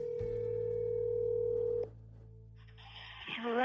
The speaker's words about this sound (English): You just dial. Let's just try to get her right now real quick.